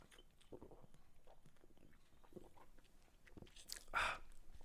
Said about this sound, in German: So, jetzt muss ich mal einen Schluck Fritz-Cola trinken.